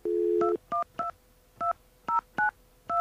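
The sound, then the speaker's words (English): Touch-tone dialing of a telephone number without the leading 1: a steady dial tone gives way to seven short, fairly faint key tones at uneven intervals, with no voices. “Now, let's see if it happens if you dial without the 1.”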